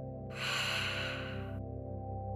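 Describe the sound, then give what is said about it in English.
A whispered exhale through the mouth during ocean breathing, a breathy hiss lasting just over a second that stops abruptly. A steady low drone runs underneath. “breathe in and out through your mouth. Feel the air moving over the back of your throat as you breathe in. As you breathe out, whisper,”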